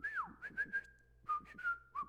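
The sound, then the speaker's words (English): Whistling that imitates a shepherd's command to a sheepdog: a few bright, shrill notes, the first sliding down in pitch and the next ones held steady, then a short pause before more clipped and held notes. “They would just whistle, and they could send the dog, like quarter to a half mile away,”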